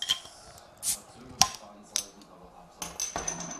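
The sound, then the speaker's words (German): A larger bottle of drink is opened close to the microphone: a few sharp glassy clicks and clinks, followed by a faint sustained hiss. “So, jetzt mein Getränk. Ja. Ich mach's mal bei deinem Mikro auf, weil ich glaube, das ist bessere Akustik, dann mal näher dran.”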